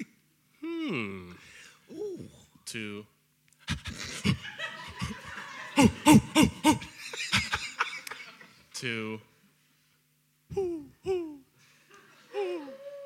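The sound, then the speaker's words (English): A person's voiced owl-hoot imitation during a sound-guessing game, with a few low, wavering hoots at the start. Then comes a long stretch of laughter and breathy bursts, and people talk around it. “It's a good owl. It's a very good owl. There's no debating it's a good owl.”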